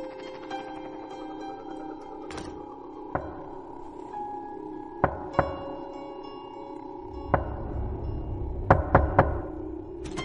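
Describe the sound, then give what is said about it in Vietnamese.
Knocking on a door from outside at night in a village: a few sharp, sparse knocks spaced seconds apart, then a quick cluster of three near the end, over a steady droning tonal background. “Có tiếng người gõ cửa vang lên ở bên ngoài.”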